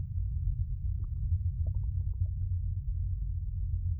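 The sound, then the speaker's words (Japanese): A stomach rumbling as last night's meal digests, a low, steady bubbling growl broken by a few short, squelchy gurgles, quiet and continuous. “昨晩いただいたものが動く音。熱く煮え立つマグマみたいに。”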